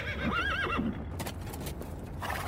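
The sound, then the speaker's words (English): A horse whinnies as its rider reins in at a mountain archway during a cavalry advance. A wavering, high neigh rises and falls in the first second, then a few soft hoof clops follow over a steady background. “iron cavalries from northern Liang swarmed towards Wudang Mountains' archway, which had an inscription, "Thriving and Prosperous." The leading man rode all the way through the archway before finally drawing rein.”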